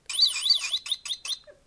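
Electronic bird chirping from a novelty giant-peanut box filled with springy toy birds and a mushroom, which plays when the lid opens: a warbling high trill followed by a few short chirps, heard alone.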